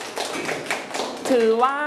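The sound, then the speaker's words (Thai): Children clapping for a classmate, a short burst of quick, light claps that ends as a voice begins speaking. “ลูกปรบมือให้เพื่อนหน่อย”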